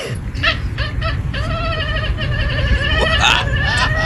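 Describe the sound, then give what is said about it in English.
A cat reacting to its owner's sneeze gives odd, bleating, almost chicken-like cries, a few loud warbling calls in quick succession over a rough, noisy background. “This cat makes a weird noise after their owner sneezes.”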